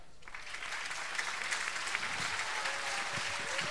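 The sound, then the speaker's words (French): Audience applause at a themed evening contest final, where placings are announced. A faint, steady patter of many clapping hands lasts the full clip without a break. “Qu'on applaudit très fort.”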